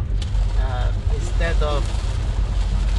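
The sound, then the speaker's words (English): Rainfall heard from the road, a steady, even hiss of falling rain with a low rumble underneath. A voice talks over it. “But it's raining right now, and you can hear the rainfall.”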